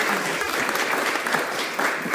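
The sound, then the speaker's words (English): Applause from an audience welcoming a speaker to the stage at a dinner event: a dense, continuous roar of many hands clapping at a steady, fairly loud level. “So without further ado, let me ask you for a round of applause to welcome Raghavdeep Singh Gill.”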